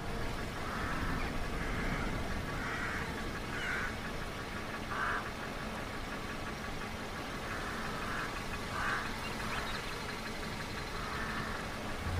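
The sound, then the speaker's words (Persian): A car engine runs as the car is driven into a garden: a steady, low, continuous rumble that stays even in level throughout, with a few brief, higher bursts rising above it. “صدرا سمت ماشین میره و ماشینش رو توی باغ میاره.”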